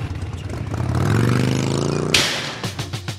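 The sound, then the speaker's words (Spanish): A motorcycle engine revs with a rising pitch, then a sudden loud clattering burst as it starts riding away, settling into a rapid pulsing engine beat at the end. “Según se te va el colaborador arrancando su moto y diciendo adiós por la puerta.”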